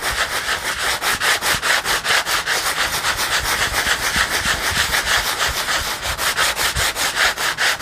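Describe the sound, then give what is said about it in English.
Sandpaper rubbing across a collage journal page that is still slightly wet, in steady rhythmic back-and-forth strokes, many of them, fairly loud and continuous, with no talking. “Rotate and be prepared to be sanded.”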